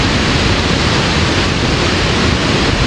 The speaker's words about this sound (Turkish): İlk kez Savak'tan, yani barajın en üst bölgesinden su bırakıldı.